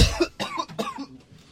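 Coughing from someone choking: a few harsh, breathy bursts close together, the first the loudest, fading into quieter rasping breaths toward the end.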